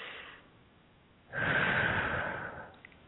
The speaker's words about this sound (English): two more nice deep breaths here